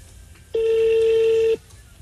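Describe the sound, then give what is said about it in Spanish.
A single steady electronic telephone tone sounds for about one second as a voicemail system transfers a call, plain and unbroken, with quiet background before and after. “Sistema correo de voz. Su llamada está siendo transferida.”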